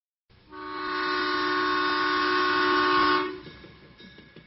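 A departing train sounds one long, steady horn blast of about three seconds, loud and sustained, which then drops away into a low rolling rumble.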